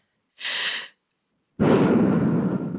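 A deep breath is taken in two airy bursts with a pause between them. The first is a brief, thin hiss. The second is longer, fuller and louder, and runs to the end. No one speaks.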